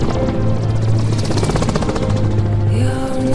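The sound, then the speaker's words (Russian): A helicopter flies up into the sky, its rotor chopping in a fast, steady rhythm over a loud engine whine and low hum. The sound is continuous and loud, with a slight change in tone near the end. “подруга смотрит на вертолет, летящий на небо.”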